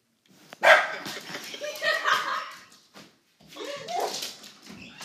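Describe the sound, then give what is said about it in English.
Dog barking, fairly quiet: a few sharp yelping barks mixed with whining sounds, in irregular bursts separated by short pauses. “Sorry, my dog is barking.”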